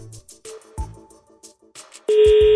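Telephone ringing on an outgoing call placed to reach a prize winner. Brief tones sound among scattered short noises, then a loud, steady tone fills the final half second.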